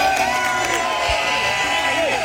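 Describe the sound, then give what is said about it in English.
Thousands of mostly Scottish fans in Boston Common cheer and shout as a kilted soccer superfan arrives after walking from Los Angeles, making a dense, continuous roar of many voices. “Thousands of people, mostly Scots, swarm Craig Ferguson as he walks into Boston Common. This is what Scotland's all about. We don't make an entrance quietly.”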